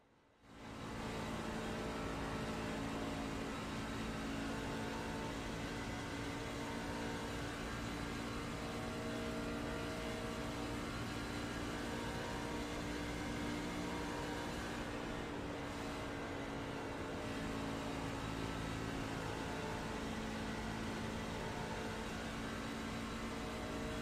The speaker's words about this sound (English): Let's go on board with the helmet cam for a few laps. Coast around this racetrack. Do a little bit of a crank it up.